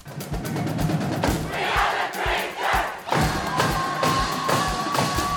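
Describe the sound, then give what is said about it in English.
The Traverse City West Bleacher Creatures student section, winners of a high-school Battle of the Fans, roaring and chanting loudly, punctuated by repeated rhythmic thuds and stomps under the crowd noise. “That was the Traverse City West Bleacher Creatures, and that is your 2022 Battle of the Fans champion.”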